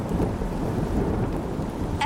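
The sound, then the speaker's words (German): Thunder rumbles low and continuously over steady, hissing rain during a thunderstorm at an observation platform, loud throughout with no voices. “Wir sollten schleunigst von dieser Aussichtsplattform runter. Das ist korrekt. Es gewittert.”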